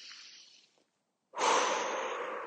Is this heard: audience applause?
no